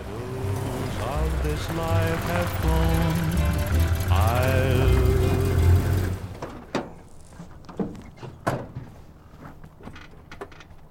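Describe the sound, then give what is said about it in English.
A truck pulls into a driveway, its engine rumbling steadily under people talking for about six seconds before going quiet. Several sharp clunks and knocks follow, like doors and footsteps. “Truck pulls into Samuel's driveway.”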